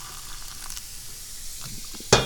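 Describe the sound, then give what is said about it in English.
Sharp sizzle as boiling water spills onto a hot stove: a single loud hissing burst that flares suddenly near the end and fades quickly, after a quiet, low background with no talk. “Just spilled boiling water everywhere. That's fine. Try this again. Still spilling water everywhere.”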